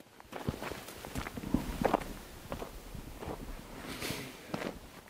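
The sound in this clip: Footsteps walking through the lower part of a village: many steady, moderately loud steps in an even walking rhythm, heard alone without talk.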